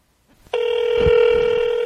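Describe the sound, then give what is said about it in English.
A telephone ringing on a call just dialed: one steady electronic tone starts abruptly and holds unbroken to the end, with faint low rustling beneath it. “All right, I'm dialing right now. All right, here we go.”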